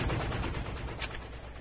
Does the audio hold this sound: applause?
no